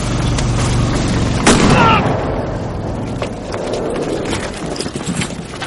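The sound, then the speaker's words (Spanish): A single pistol shot cracks out about a third of the way in, sharp and brief, during a wartime thriller scene set in snow, over a continuous bed of background noise. “El sargento intenta arrebatarle la pistola a Arturo y se coloca de espaldas a Isard, que le dispara.”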